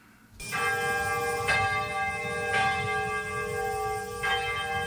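A rebuilt church bell, replacing one destroyed by an atomic bomb, rings out for the first time at a memorial: four clear, resonant strikes whose long, humming tones overlap and sustain between blows.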